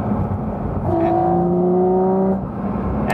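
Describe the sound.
A car engine drones steadily while the car is driven. Through the middle, a tonal whine creeps slowly upward in pitch over a constant rumble.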